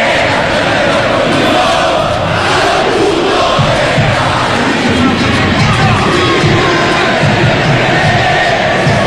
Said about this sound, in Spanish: El público de Olimpia con todo